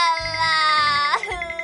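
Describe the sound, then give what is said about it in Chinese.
A princess cries in a high, wavering, voiced wail with sobbing breaks, loud and alone. “公主，你别哭啊，”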